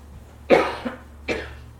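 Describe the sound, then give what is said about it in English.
A person with acid reflux gives two dry coughs, the first louder and followed by a brief rasp, the second after a short pause. “I've been coughing, and I'm afraid everybody's going to run out of the building. Don't do that. I've got a little acid reflux, and that's what that is, okay?”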